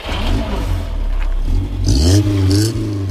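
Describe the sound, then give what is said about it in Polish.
A competition car's engine runs on a race track in Poznań: a loud, continuous low rumble that swells into a rev with rising pitch partway through, then settles back. “Zamykamy drzwi, samochód za chwilę odpalamy i będziemy gotowi.”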